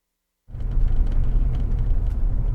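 A car drives along a gravel road on the Ute Mountain Ute Reservation in the high desert of southwest Colorado. A steady, dense low rumble begins after a brief silence and holds evenly to the end.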